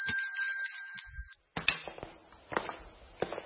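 A small bell with a narrow neck rings in a bright, rapid jangle for about a second, then falls silent. A few light clicks and knocks follow.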